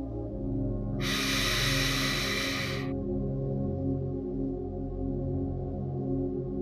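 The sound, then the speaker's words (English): One long, deep breath in, taken during a guided relaxation, is heard as a soft airy rush lasting about two seconds. It sits over a steady, quiet low drone that continues after the inhale ends. “Let's take one final deep breath in.”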